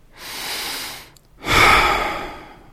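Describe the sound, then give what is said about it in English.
A deep breath drawn in and let out: two long, airy rushes of breath separated by a short pause, the second stronger and trailing off slowly. “take a breath with me.”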